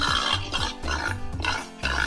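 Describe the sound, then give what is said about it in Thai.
A large pink European-breed pig, bigger than local breeds and weighing over 200 kilograms, giving a steady series of rough, rumbling grunts in quick succession, fairly loud and alone. “เป็นหมูที่มาจากยุโรปตัวจะโตกว่าหมูพันธุ์พื้นบ้านนะคะ”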